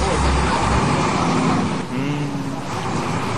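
Road traffic noise on a rainy day: a loud, continuous rushing roar of passing vehicles with low engine rumble, dipping briefly midway before swelling again.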